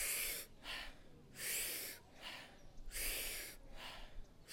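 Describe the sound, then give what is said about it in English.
Breathing exercise of powerful, deep inhales and soft exhales, each about a third as long. Loud, rushing breath noise comes in a few strong surges, with quieter breathy stretches between them and no voices. “the point is to take the largest inhale that you possibly can, and then the exhale is soft. It's just about a third of that inhale, and it sounds like this.”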